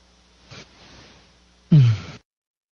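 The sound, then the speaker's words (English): A deep breath, a faint short intake followed by a louder, drawn-out voiced exhale that falls slightly in pitch before cutting to silence. “Yeah, I know my heart just cleared out just now from a good deep breath.”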